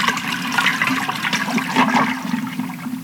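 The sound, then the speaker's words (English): A double toilet flush, one straight after the other, makes continuous loud rushing and gurgling water with no break in the sound. “A double flush.”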